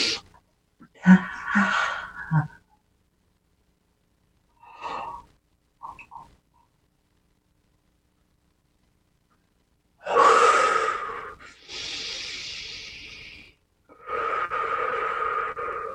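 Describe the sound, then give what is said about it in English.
Slow, deep breaths drawn down into the diaphragm during a guided breathing exercise: a few separate airy inhales and exhales with long silent gaps between them, the later breaths longer and fuller. “Breathe into the diaphragm.”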